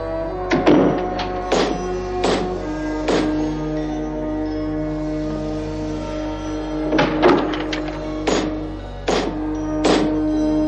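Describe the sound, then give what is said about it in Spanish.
Heavy doors being shut one after another by a notary in a Vatican building. Each closing is a sharp thud with a ringing, bell-like resonance. A cluster of knocks comes first, then a pause of several seconds, then another cluster. “Después, el notario sigue cerrando todas las puertas del edificio.”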